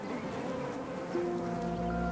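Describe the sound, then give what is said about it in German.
Honeybees buzz inside the hive as they sweat out wax and build comb: a dense, steady, faint hum, with a clearer sustained tone entering partway through. “Kurze Zeit später machen sich die Bienen daran, körpereigenes Wachs auszuschwitzen und daraus Waben zu bauen.”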